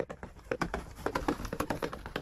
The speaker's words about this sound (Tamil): அந்த சமயத்தில் கொஞ்ச தூரத்தில் குதிரைகளின் காலடி சத்தம் கேட்டது. சத்தத்திலிருந்து 4-5 குதிரைகளாவது வருகின்றன என்று தோன்றியது.